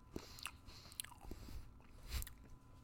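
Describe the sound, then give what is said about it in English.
Crisp crunching as someone bites into an apple and chews, with several sharp crackling snaps and softer munching, faint overall. “you just ate 30% of that apple in one bite.”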